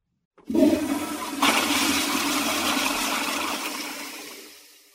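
A toilet flushes in a bathroom with a sudden loud rush of water that surges again a moment later, then churns steadily before slowly draining away to quiet.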